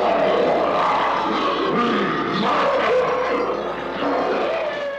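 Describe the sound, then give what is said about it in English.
The King Kong Roar sound effect, used as the voice of the Bumble, the Abominable Snow Monster in the stop-motion Christmas special Rudolph the Red-Nosed Reindeer: a loud, sustained, rumbling roar that fills the whole stretch without talk. “That was the Abominable Snow Monster, aka the Bumble, from the old stop-motion Christmas special Rudolph the Red-Nosed Reindeer. One of the Bumble's vocalizations is a sound effect called the King Kong Roar.”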